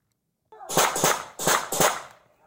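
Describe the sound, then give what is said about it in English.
Gunshots fired by a police team leader on the ground, picked up by a body-worn camera: several sharp, loud cracks in quick succession, with no talk over them. “So what are those rounds? So the rounds we just heard there are from the team leader who's on the ground”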